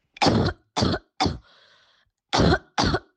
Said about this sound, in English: When the model is fed the cough of a COVID-positive individual who is exhibiting symptoms,